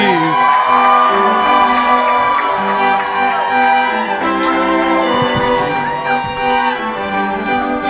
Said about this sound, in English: Please put your hands together and welcome to the stage your host for this afternoon show.